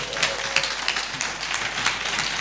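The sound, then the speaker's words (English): An audience claps during a church sermon, a dense, steady patter of many hands that holds at an even level throughout, with no voices on top. “Are you clapping for Jesus?”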